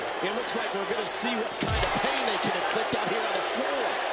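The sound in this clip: A single heavy thud as the wrestler Earthquake is slammed to the mat by Vader's back suplex during a pro wrestling match, with a commentator's voice running over it.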